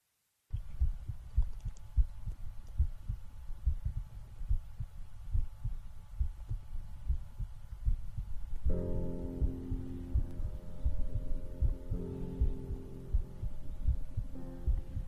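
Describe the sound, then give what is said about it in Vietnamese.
A running hospital ventilator gives a steady, rhythmic low throbbing that repeats evenly throughout. Partway through, a humming tone joins the pulses. “Âm thanh đều đặn phát ra từ chiếc máy thở đang hoạt động.”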